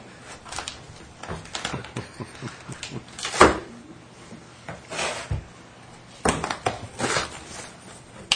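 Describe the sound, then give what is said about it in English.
Tape tearing and packaging rustling as a heavily taped courier package is opened: scattered crinkles and rips, with one loud, sharp tear standing out among quieter scraping bursts. “I'll have to be patient with me opening this because it's taped up like it's going down on the Titanic for a ride.”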